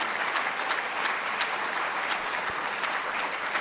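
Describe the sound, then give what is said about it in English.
An audience gives a round of applause, a dense, steady patter of many hands clapping that holds at an even level for the whole stretch, with no talk over it. “although she is not here, give her a round of applause”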